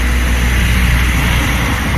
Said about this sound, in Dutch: er reed weer een brom of een autootje langs